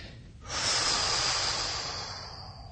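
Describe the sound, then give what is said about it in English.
A big, deep breath during a church service: one long, loud, breathy draw of air that swells after half a second and holds for about two seconds before slowly easing off, with no talk. “take a big deep breath. Do that right now”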